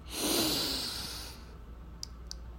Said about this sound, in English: I'd like you with me to take a deep breath in,